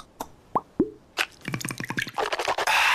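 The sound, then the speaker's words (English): Listerine mouthwash being poured: a few isolated clicks and hollow plops, then a quick run of bubbling, glugging drips that thickens into a steady liquid flow. “You know what that is. That's the sound of wow with Listerine. Simply grab, twist, pour, and swish for 30 seconds twice a day to add the wow of Listerine”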